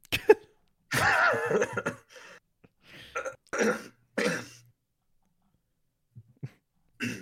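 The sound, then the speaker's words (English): Someone clears their throat in a series of short, harsh, uneven bursts with quiet gaps between them, ending with a few faint breathy sounds. “All right, I got something in my throat.”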